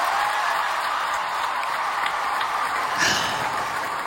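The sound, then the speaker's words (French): Applause fills the Paris Opera after a dancer is named étoile: a dense, steady wash of clapping with one brief louder swell partway through. “les applaudissements durent et puis le directeur général de l'Opéra National de Paris arrive, Alexander Nief, et à ses côtés José Martinez, directeur de la danse”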